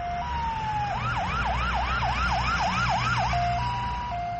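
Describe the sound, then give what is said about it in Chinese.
An ambulance siren sounds loud and continuously, holding a steady tone at the start and end, with a run of rapidly repeating rising sweeps in between, over a low road rumble. “救护车。”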